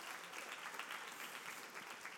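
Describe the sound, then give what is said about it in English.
Hand clapping from a church audience during a youth-oriented service: steady group clapping, moderately soft, running evenly from start to finish. “Got a hand clap.”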